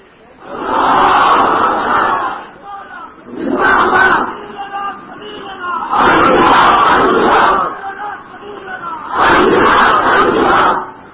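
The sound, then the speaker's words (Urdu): Crowd chanting a religious slogan at a gathering in Shorkot: four loud, unison shouted bursts of many voices, each lasting a couple of seconds, separated by short pauses. “نام شور کوٹ ہے اور نعرہ بغیر شور کے لگاتے ہیں، اللہ کا نام تو اونچا بلند کیا کرو”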